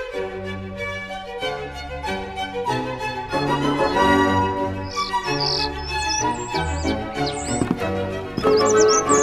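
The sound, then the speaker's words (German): A starling sings, with quick high chirps and squeaky whistles breaking in from about midway over sustained lower tones that run throughout, growing busier near the end. “Was bist du doch für ein hübscher Vogel!”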